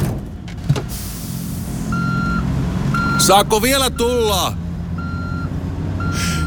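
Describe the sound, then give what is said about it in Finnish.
Reversing beeps from a car backing up: a regular series of steady, evenly spaced mid-pitched tones over a low engine rumble, with a brief burst of louder mixed noise partway through. “Hei, viititkö mennä kattoon, kun mä peruutan? Joo, tietty. Ja huudat sitten kovaa seis.”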